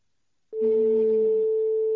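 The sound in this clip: A telephone line tone sounds while a number is called: one steady, unbroken mid-pitched tone lasting about a second and a half, cut off abruptly at the end.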